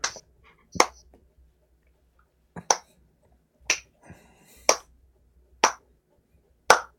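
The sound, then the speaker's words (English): A slow clap: sharp, crisp single claps ring out one at a time with long silent gaps between them, spaced roughly a second apart. “slow clap all around.”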